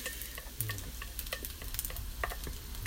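Fried rice stir-fries in a frying pan, a quiet, steady sizzle broken by many light scrapes and taps of a utensil against the pan, with no talking.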